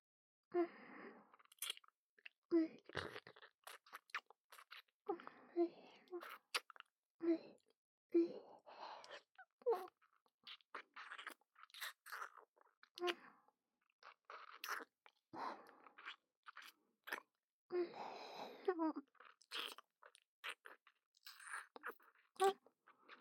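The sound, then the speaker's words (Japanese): Tongue kissing, heard as many soft, irregular wet smacks and slurping mouth noises mixed with breathy sighs, all quiet and continuing throughout. “やはり舌を使ったキスは気持ちいいですね。もう少しだけ続けてもよろしいですか？”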